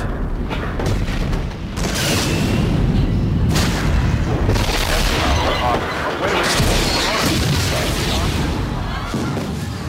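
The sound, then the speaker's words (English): A sabotaged machine explodes in a dense, continuous roar of booms and crashing debris that stays loud and churning for about ten seconds. “But fear not, Drumlin's machine explodes.”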